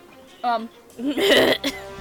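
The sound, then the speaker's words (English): A person coughs and clears their throat on something caught in it. A short voiced sound comes first, then harsh, noisy coughing bursts and a brief final catch. “Oh god, something caught in my throat.”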